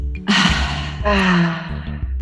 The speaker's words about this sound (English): Okay, so inhale. Exhale.